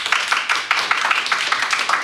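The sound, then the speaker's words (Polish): Audience applause at a lecture event, loud and quick, with individual hand claps standing out in an uneven patter and no talk over it. “To jeszcze raz moment oczywiście na brawa od państwa.”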